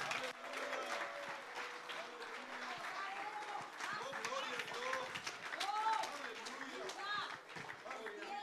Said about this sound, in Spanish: Dale un aplauso si tú quieres.